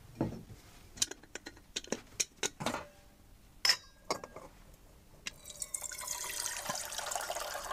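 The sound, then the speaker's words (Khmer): Water and pots being handled as water is set on a fire to boil for cooking: a few sharp clanks and short splashes, then a steady rushing pour, all faint and without voices. “យើងត្រូវកាច់ភ្លើងហើយយើងដាំទឹក”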